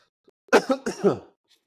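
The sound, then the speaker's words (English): A short bout of coughing, about four rough, throaty bursts in quick succession, moderately loud and alone, with quiet gaps before and after. “So sorry for coughing and all these pauses.”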